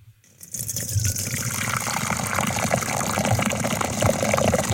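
Liquid is poured into a container during a side-by-side pouring comparison: a steady, full gushing splash starts after a brief quiet moment and runs unbroken to the end, with no voices.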